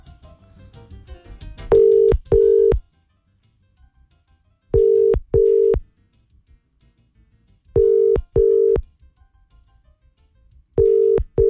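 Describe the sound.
Ringback tone of a telephone call that goes unanswered: four pairs of short, steady, mid-pitched tones repeat about every three seconds, and the final pair is cut off. Faint, busy sounds come before the first ring.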